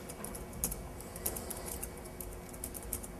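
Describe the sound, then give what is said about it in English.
Numbers typed on a computer keyboard, a quiet run of quick, light key clicks with a few sharper taps standing out. “So just to demonstrate this and to prove that it does in fact work, if I type in the numbers 1 through 9 in any particular order,”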